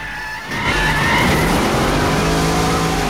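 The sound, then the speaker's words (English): Engines roar as two vehicles, one a pickup truck, accelerate toward each other at high speed in a film scene. After a brief quieter start, a dense, loud, continuous roar with a thin whine swells in and holds steady. “The two vehicles accelerate towards one another at phenomenal speed”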